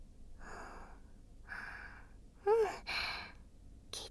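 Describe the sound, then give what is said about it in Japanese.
Quiet, soft, breathy sounds of a person taking a few slow, deep breaths. One breath is louder and has a voiced, sigh-like quality. “じゃあその前に、私の言う通り深呼吸してみよう。”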